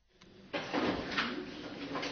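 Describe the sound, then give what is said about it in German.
Office drawers being cleared out as staff empty a cabinet of name badges: a faint click, then continuous sliding, scraping and rustling of contents being handled, with no talking. “Schublade um Schublade räumen die Mitarbeiter aus, ziehen unzählige Namensschilder von diversen Konferenzen aus dem Schrank.”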